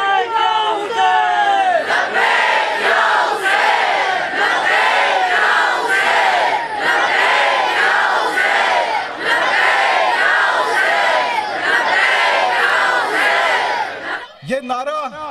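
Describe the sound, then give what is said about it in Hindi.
A large crowd at a sit-in chants "Labbaik ya Hussain" in loud unison, the phrase repeated in a steady, driving rhythm before breaking off abruptly near the end. “ये नारा लब्बैक या हुसैन लगाने वाली कौम है”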